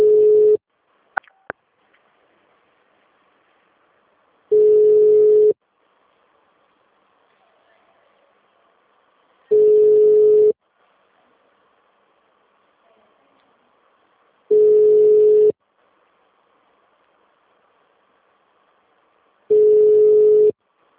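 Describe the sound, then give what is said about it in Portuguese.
A telephone line tone sounds while a call is being transferred: a steady, low-pitched beep about a second long repeats five times at roughly five-second intervals, with near silence between and a couple of faint clicks near the start. “Aguarde um momento que estamos transferindo a sua ligação.”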